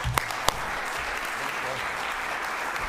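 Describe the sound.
Audience applause welcomes a Christian historian on stage: a dense, steady wash of clapping throughout, with a couple of sharper, louder claps near the start.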